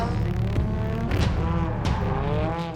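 A drift car on a qualifying run at a drifting competition, held on the throttle while sliding. Its engine roars loudly and steadily with a strong, continuous tone throughout.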